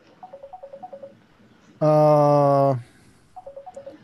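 Incoming telephone call: a quick run of short, evenly spaced beeps, then a loud, steady buzzing ring lasting about a second, followed by more short beeps.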